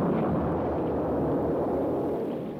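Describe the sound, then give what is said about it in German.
A ship exploding and sinking with all aboard, as a dramatic sound effect: a dense, loud roaring rumble that fills the whole stretch without a break. “Explodiert. Versinkt mit Mann und Maus.”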